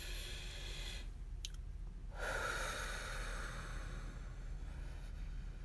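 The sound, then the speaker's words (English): A deep breath is drawn in and let out slowly as part of a calming exercise, a soft airy rush rising over steady background hiss. “Maybe you're stressed too, just take a deep breath in with me.”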